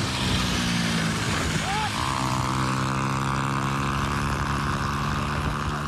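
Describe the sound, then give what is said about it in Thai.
Motorcycle fleeing police on a bare rear wheel rim after its tire came off, giving a loud, continuous droning engine roar with a steady hum that holds throughout. “ท้องถนนทีนี้เขาก็เลยเข้าไปเรียกปรากฏว่าคนขับรถมอเตอร์ไซคันนี้ไม่จอดขับหนีจนกระทั่งยางล้อหลังหลุดไปเลยค่ะบดไปทั้งวงล้อเปล่าๆแบบนั้นพาคุณผู้ชมไปดูคลิปเหตุการณ์ที่เกิดขึ้นกันก่อนค่ะ”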